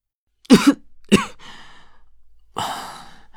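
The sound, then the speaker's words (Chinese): A woman coughs, set off by a chill while ill for several days: a few harsh, breathy coughs, with two close together, another shortly after, then a longer, rasping one after a pause. No one speaks. “钟婉被玉社身上带来的寒意引得咳了起来”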